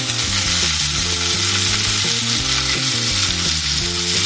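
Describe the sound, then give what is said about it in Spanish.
A ribeye steak frying in a pan with butter and onion, giving a steady, loud sizzling hiss that holds throughout. “Y ahorita pasamos a poner el bebé. Miren nada más. Ponemos en el sartén el ribeyecito.”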